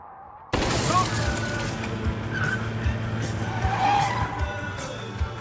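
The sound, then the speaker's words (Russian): Engine roar and tyre skidding from a Lada Niva car chasing a Zhiguli car in a film chase scene. The loud, continuous engine noise bursts in abruptly and carries on with rough, scraping texture. “за «Жигулями» пристраивается Нива.”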